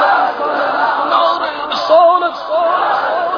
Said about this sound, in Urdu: شان سے, یا رسول اللہ کا نعرہ لگاتے جائیں گے, نعرہ رسالت